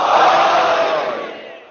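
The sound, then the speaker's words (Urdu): A crowd shouts a slogan together in unison, the final chant honoring Imam Ali at the close of an Ashura gathering. The massed voices sound as one loud, sustained roar that slowly fades. “تو میرے مولا علی علیہ السلام کا ایک بہت اچھا سا آپ نام بلند کر دیں سب مل کے, لیکن جواب دیجیے گا.”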